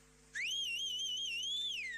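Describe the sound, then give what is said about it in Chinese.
A single sustained human whistle, the kind a shepherd uses to steer sheep on grassland. It is a clear, high, steady tone with a slight waver that slides downward at the end, heard alone over a faint low hum. “你打一个口哨，你的羊就知道，哎，不能往这边走了，就扭头往这边走。”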